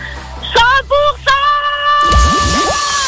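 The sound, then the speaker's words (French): A sound effect of a dive splash into water: a few short tonal notes, then a sudden broad splash with a low, bubbling swirl that carries on to the end. “Oh là, avec ce plongeon, on va attendre qu'elle remonte.”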